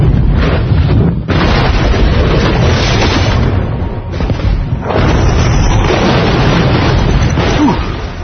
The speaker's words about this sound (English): Crazy man blows up a crazy house.